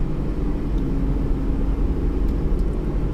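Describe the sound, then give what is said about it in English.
Steady low rumble of a car driving, heard from inside: a constant, even engine and road drone with no talk over it. “moving about here in a car”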